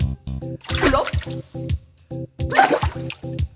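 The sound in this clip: Two splashes of water from someone diving in, each a broad wet burst over a bouncy, rhythmic music track.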